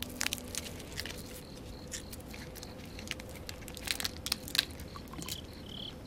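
Faint crunching and chewing as someone eats small pieces of food, with soft, irregular bites over a steady background hiss.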